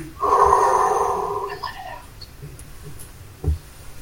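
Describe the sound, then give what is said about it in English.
A deep breath drawn in and let out, a long breathy rush with a faint voiced tone that fades over about two seconds, followed by a short puff of air near the end. “Chill. Everybody, do this with me. Take a deep breath.”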